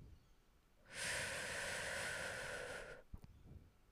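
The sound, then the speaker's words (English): A deep breath drawn in and held, heard as a long airy hiss of about two seconds that stops abruptly into near silence, followed by a few faint clicks. “today we're going to start off by taking the deepest breath we've taken all day”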